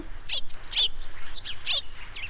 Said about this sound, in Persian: صدای ما به این زیبایی و مقبولی شما باید از این صدای لذت ببرین خصوصا که ما کلگی با هم بر تو چیک چیک میکنیم چیک چیک چیک چیک